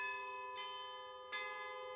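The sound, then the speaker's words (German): Bell ringing at an emergency pharmacy: faint, sustained metallic ringing tones, with two struck onsets layered over the steady ring. “Bei der Notapotheke hat er dann selber läuten müssen.”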